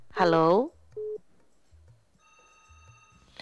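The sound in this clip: Telephone line tones for a radio call-in caller: a brief voice, then a single short electronic beep, then a steady, faint high tone running to the end.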